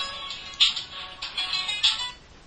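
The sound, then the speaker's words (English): A mobile phone ringtone repeats a short melodic phrase of electronic chiming tones, with two brighter accented notes recurring at a regular interval, at moderate volume with no voices. “Sorry, that's my phone.”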